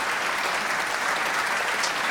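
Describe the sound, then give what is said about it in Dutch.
Applause from the audience in a small concert hall in Amsterdam after a live piano trio performance: dense, steady clapping that stays even and full throughout without pauses or voices. “Applaus voor het Franse trio Pantoum.”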